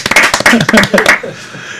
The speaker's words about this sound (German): Vier Klatschen. Vier Klatschen. Ein Applaus für uns.